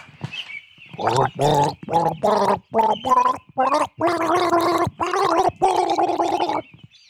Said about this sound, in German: Hier kommt unser Virtuose mit dem Blumenwasser und er gurgelt für Sie einen Lamour-Hatscher.